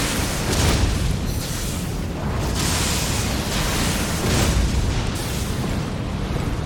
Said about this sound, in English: Whoa, that fire breath is slightly homing. That is pretty wicked.